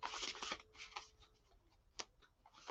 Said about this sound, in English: So these Pleiadian cards are a little bit bigger. I need more room to shuffle.